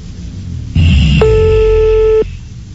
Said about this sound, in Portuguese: Vou começar ligando aqui.